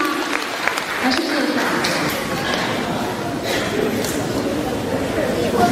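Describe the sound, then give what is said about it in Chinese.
An audience at a gathering applauds in a sustained, even round of clapping, with some voices and chatter mixed in. “鼓掌。”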